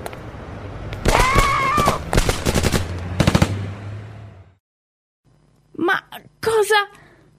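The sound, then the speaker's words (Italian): Rapid gunshots ring out in a tense urban scene as a car is brought around, a fast burst of sharp cracks following a voice, then a short silence before voices are heard again. “Cosa è successo? Non lo so. Sembravano spari.”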